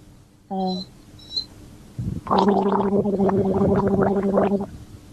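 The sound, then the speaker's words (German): Loud, bubbly gargling of a sip of water runs steadily for about two and a half seconds after a brief voiced sound and a short pause. “einen Schluck aus seiner Flasche nimmt und einfach mal gurgelt, also laut gurgelt”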